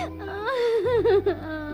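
A child cries in a wavering, whimpering wail that dips and rises in pitch, sustained and fairly loud for nearly two seconds.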